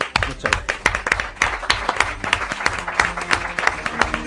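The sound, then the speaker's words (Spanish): Studio audience applause fills the whole stretch: many hands clapping in a dense, steady patter of sharp claps that keeps going without a break. “Y ahora nos toca a nosotros darles el aplauso a ellos.”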